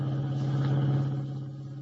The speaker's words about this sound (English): Kent and White dashed out, and as we join them now, they are driving the revived but still weak Jim Olsen back to the Daily Planet.